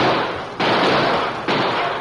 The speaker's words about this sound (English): All right, men, shoot over their heads to turn them away. All right, fire!